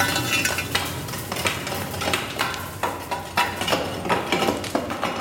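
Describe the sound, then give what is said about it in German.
Large wood logs being rearranged through the lower wood hatch of a nearly three-metre, brick-built, white-painted oven, a rough continuous scraping and rustling broken by a few louder knocks and clatters. “Und ich muss jetzt ein bisschen das Holz neu arrangieren, damit wir einen sauberen Brennprozess haben.”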